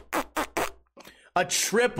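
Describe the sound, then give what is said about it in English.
A voice imitating a combo fart after a chili dog meal: three short sputtering puffs, a brief pause, then a longer, drawn-out blubbering noise. “I hit her with a combo fart. It started off like this. And then it went straight to, and then it ended with”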